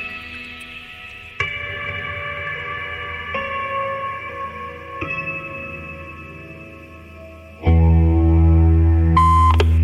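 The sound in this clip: Telephone ringing tone of an unanswered call: steady electronic tones repeat in regular pulses. Near the end a louder, lower buzzing tone takes over.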